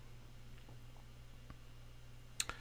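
Two quick, crisp computer mouse clicks during a software walkthrough, coming close together near the end after a quiet stretch with only a faint background hum.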